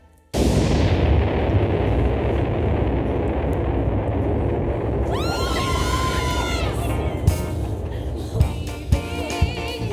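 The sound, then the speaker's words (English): A small demonstration bomb explodes with an abrupt, loud blast that swells into a sustained roar. High whistling tones rise out of it midway, and a few sharp cracks punctuate the rumble toward the end. “If you like, I have substantiation. A smaller bomb I made for demonstration.”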